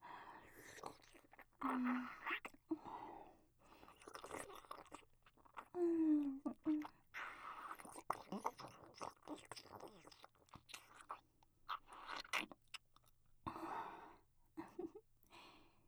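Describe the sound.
A baby chewing and eating food: many soft, wet smacking and mashing sounds in an irregular rhythm, quiet throughout, with a couple of brief high vocal squeaks.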